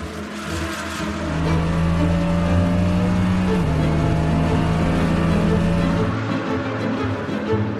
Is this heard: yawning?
no